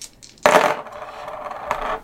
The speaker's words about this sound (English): we all roll our dice. So I'll do mine first, just as an example.